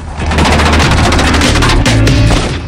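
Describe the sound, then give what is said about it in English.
Rapid gunfire from men shooting as they run toward a car: a dense, loud volley of overlapping shots over a low booming rumble, continuing without a break. “Men run towards them firing as they come.”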